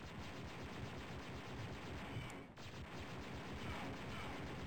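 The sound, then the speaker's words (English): The Imperial Repeater gun fires in the 1995 first-person shooter Dark Forces, a faint, rapid, steady stream of repeating shots blending into a dense, even roar without a break. “So I'm gonna switch to a different gun. Let's try the Imperial Repeater.”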